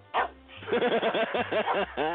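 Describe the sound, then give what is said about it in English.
A dog barks in a rapid, steady run of many short, sharp barks, loud and clear over a faint low hum. “My sweetie. My sweetheart dog. There he is”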